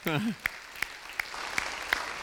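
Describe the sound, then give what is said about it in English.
Congregation applause for a visitor at a church service: a soft, steady clapping wash with a few crisp, evenly spaced sharper claps standing out. A brief voice is heard at the start. “let's give our visitor one more round of applause.”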